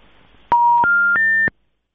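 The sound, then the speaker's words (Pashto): Telephone line tones as a call drops: three steady electronic beeps in a stepped rising sequence, each about a third of a second long, loud and clean, then silence. “متاسفانه چې د حق بیان صاحب ټلیفون قطع شوی دی.”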